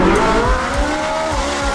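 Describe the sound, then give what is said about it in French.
A very large Ferrari sports car engine roars loudly and steadily in a dense, harmonic drone, with a few low pulses underneath. A voice speaks a brief phrase over it. “Une très grosse Ferrari, ça.”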